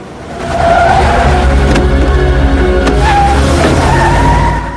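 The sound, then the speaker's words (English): A getaway car speeds up behind a house and roars off: a loud, continuous engine roar with squealing tire tones running through it, sustained for about four seconds. “At the rear of the house, a getaway car speeds up to collect the hitman and then roars off.”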